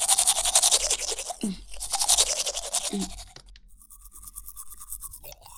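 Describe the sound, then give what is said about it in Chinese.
A mother brushes her child's teeth with a toothbrush, producing rapid, scratchy scrubbing strokes in two lively bursts, followed by quieter, softer brushing and small mouth sounds. “放轻松，妈妈帮你刷牙哦，别紧张，只要刷干净。”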